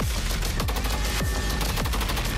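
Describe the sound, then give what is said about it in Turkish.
Sustained automatic gunfire from an MMT-76 light machine gun, an 8 kg weapon firing about 750 rounds per minute, during air-to-ground firing tests. A loud, dense, unbroken clatter of shots runs throughout with no voices. “MMT-76 hem piyade tipi hafif makineli tüfek hem de helikopter platformlarında görev yapabilecek çok amaçlı bir silah sistemi kabiliyetine ulaştı.”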